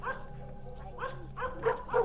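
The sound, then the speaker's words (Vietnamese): A pack of dogs barking frantically, with several sharp, harmonic barks and yelps breaking out in quick, uneven succession, moderately loud and without voices. “Tiếng chó vẫn sủa không ngừng, thậm chí càng lúc càng dồn dập.”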